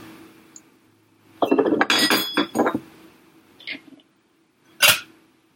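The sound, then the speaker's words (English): An egg cracked into a bowl gives a quick cluster of sharp clinks and taps, followed by two brief, isolated knocks, over a faint steady hum. “once again, we'll crack our egg into a bowl. And I like to do it into a bowl first, just in case there's any shells.”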